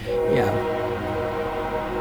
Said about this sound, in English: have the train stop going by when I'm podcasting